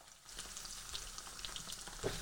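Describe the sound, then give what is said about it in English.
Potatoes fry in a single layer in a pan while being stirred around. A faint, steady sizzle runs throughout, with a few light scraping clicks from the stirring. “So we've basically covered the bottom layer of the pan there with the potatoes. We're not overstacking it. We're going to do them in parts. Just keep stirring them around.”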